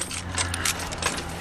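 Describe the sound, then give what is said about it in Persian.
Keys jangling in a steady, busy metallic rattle of many small bright clinks over a low, constant hum, with no pauses across the short stretch. “این کلیده رو باید چیکار کنیم؟”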